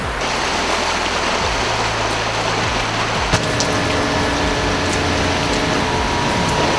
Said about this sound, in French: malgré le captage de l'eau, il y a de l'eau qui, s'écoule, donc le surplus qui part et qui rejoint la Morachonne.